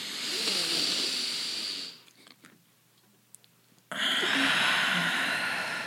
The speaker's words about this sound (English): Inhale, hold it, exhale.